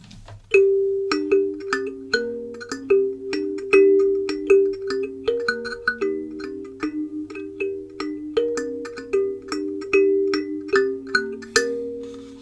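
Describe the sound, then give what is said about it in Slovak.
A kalimba, a wooden-bodied thumb piano, plays a melody of many bright plucked notes at a steady pace. Each note rings briefly and then fades, and the instrument is heard alone. “Je to nástroj, ktorý sa volá kalimba. Sú zasa rôzne veľkosti z rôznych materiálov, väčšinou teda z dreva.”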